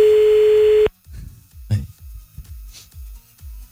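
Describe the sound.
A ringing tone from an outgoing telephone call plays as one steady, loud, continuous tone of about a second, then cuts off abruptly. People talk after it.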